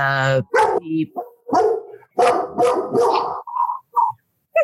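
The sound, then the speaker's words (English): Loud, sharp barks and yips from a dog, several in quick succession with short gaps between them. “Shut up. I don't know what you're barking at, but be quiet.”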